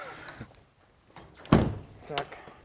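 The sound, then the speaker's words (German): Heavy tailgate flap of an old restored beer wagon being shut, landing with a single solid thud, with people talking around it. “kannst die Klappe noch mal zumachen, die geht immer so schwer.”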